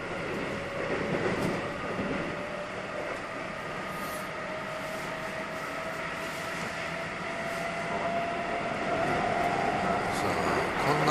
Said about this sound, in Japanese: 今ほんで電車の音が大きくなってきたから、僕ちょっと大きめで喋ってますけどね、電車の音に紛れて喋るみたいな感じで